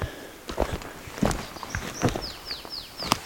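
Footsteps walking through a forest in wheel ruts left by a forwarder or harvester machine: a series of soft, irregular crunching steps, with a few short, high, falling bird chirps near the end.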